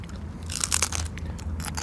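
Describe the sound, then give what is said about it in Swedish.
Crunching as someone takes a big bite and chews at a surströmming tasting, with a burst of crisp crackling bites followed by softer, steady chewing crunches. “Men då får vi ta en rejäl tugga här nu med en liten hutt och alkoholfri såklart.”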